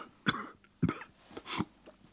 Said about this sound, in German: Ich huste hohl.